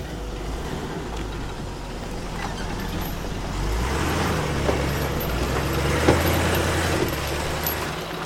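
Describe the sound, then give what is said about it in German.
A car climbs a lonely dirt road through forest in Brazil on a hot January day. A steady low engine rumble mixes with rough road noise, and the rumble grows somewhat louder partway through. No one speaks. “fahren wir eine einsame Lehmstraße hinauf, durch den Wald”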